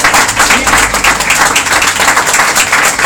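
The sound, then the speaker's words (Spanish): Congregation applauding during a church service, a dense, loud wash of clapping that stays steady for the whole clip with no clear pauses. “denle un aplauso a Dios por su vida. Denle un aplauso a Dios. Bien fuerte.”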